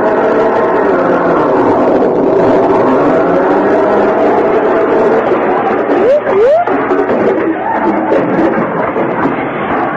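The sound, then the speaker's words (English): A radio comedy sound effect of a car driving across a lawn: a loud, continuous engine rumble and roar that holds steady throughout, with a brief wavering tone partway through. “What are you two hoodlums think you're doing? Driving across my lawn with that car.”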